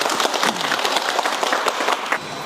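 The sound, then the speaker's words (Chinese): Audience applause for the winner of a watermelon-inspecting contest: dense, steady clapping from many hands that holds at an even level for the whole stretch. “韩正选手， 好，那大家给他鼓掌。”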